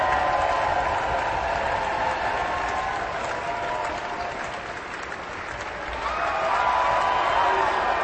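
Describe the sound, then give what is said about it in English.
Audience applause for an orchestra after a performance of Mahler's First Symphony: dense, sustained clapping that dips slightly midway, then swells again toward the end. “Meister Deneve bows, turns to the orchestra, acknowledges each section, and now the full orchestra is standing, receiving the appreciation of the audience.”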